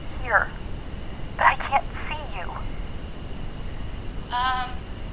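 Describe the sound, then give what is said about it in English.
A satellite phone rings with a few short, warbling electronic tones over steady background hiss. The bursts are spaced irregularly, and the last one is the clearest and most tonal. “Guys? Is that his sat phone? I think so.”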